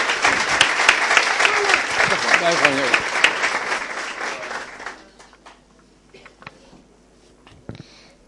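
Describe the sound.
A group of people clap their hands in loud, dense applause for about five seconds. The clapping then thins out to a few faint, scattered sounds.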